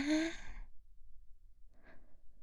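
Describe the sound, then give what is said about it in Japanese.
A breath pushed out during a guided breathing exercise: one broad, airy, sigh-like exhale at the start that fades within a second, then a fainter breath near the end. “はい、吐いて。押しながら吸って、”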